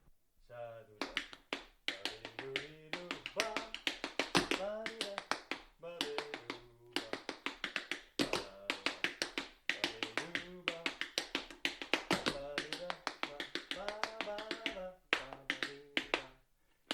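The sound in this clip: Tap shoes strike the floor in a tap-dance demonstration, making rapid, crisp, rhythmic clicks in quick runs and accents throughout. A voice is heard alongside the steps for much of the time.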